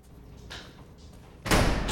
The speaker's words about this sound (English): a closed door, which a guard on the other side opens, letting him into the interrogation room